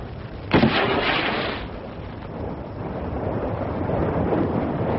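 A line-throwing gun fires a cord across to a tanker: one sharp report followed by a roughly one-second rushing hiss, then steady wind and sea noise carries on.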